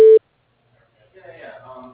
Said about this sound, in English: Leave your message at the tone. Press pound when finished.